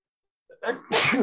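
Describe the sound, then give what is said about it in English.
A single powerful human sneeze: a brief breathy intake, then a sharp burst and a loud, noisy explosive release lasting about half a second. “Damn, that was a powerful sneeze.”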